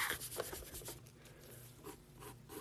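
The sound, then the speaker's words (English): Scratchy strokes of drawing on paper, with a brisk burst of rubbing at the start and then softer, continuous scraping broken by a few short pulses. Faint, with no talk. “Let's get on to my disgusting little drawing.”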